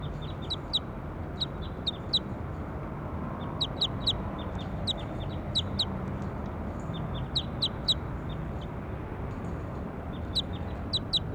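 High-pitched bird calls ring out as quick chirps in short repeated bursts, sounding again and again over a steady, low background hiss.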